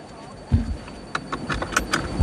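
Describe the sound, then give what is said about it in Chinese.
A seatbelt is fastened inside a driverless autonomous car at a test ground: a dull thump, then several light metallic clicks and clinks of the buckle and strap, ending in a heavier low bump. “好，现在我已经上车，第一件事是要系好安全带。”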